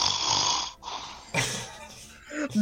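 Loud snoring comes as a few long, rasping breaths with throaty rattles, separated by brief pauses and growing more forceful in the closing bursts.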